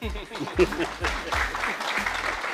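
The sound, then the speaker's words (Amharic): An audience applauds an author with a steady, even wash of clapping that lasts the whole short stretch, a voice faintly audible beneath it. “ከቻላችሁ ማጨብጨብ አለባችሁ። ያን ደራሲ።”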